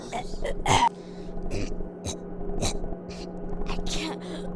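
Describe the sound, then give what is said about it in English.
Short gasps and throat-clearing coughs from a girl choking during an allergic reaction after eating cookies, a few sharp breathy bursts over a low steady background hum. “I can't breathe. Are you okay? Oh my god. She's choking.”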